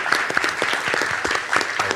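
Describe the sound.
Audience applause at a CAP event honoring its hospitality director: a dense, steady patter of many hands clapping, holding an even, fairly loud level throughout with small bursts of sharper claps.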